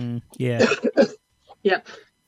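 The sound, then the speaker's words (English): A person coughing and clearing their throat in a few rough, moderately loud bursts mixed with short voiced sounds, with brief pauses between them. “You've got a bit of a cough there.”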